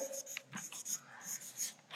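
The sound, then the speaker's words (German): Faint, scratchy strokes of someone writing on a board, a quick run of short scrapes and light squeaks in uneven rhythm, heard alone without talk. “Ich schreibe hier mal, statt gutes Land oder Christus, den Geist, im Geist zu wandeln.”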